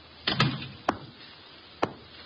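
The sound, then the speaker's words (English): A door being shut, heard as three sharp, short impacts spread over about two seconds, the first followed by a brief scraping rattle. “Shut the door”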